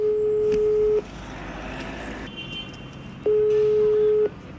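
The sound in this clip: A phone call ringing out, with two steady, loud, low-pitched ringback tones of about a second each separated by a pause of a couple of seconds, over a faint background hum.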